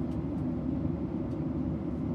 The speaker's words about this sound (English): We can't do that because we're on a plane.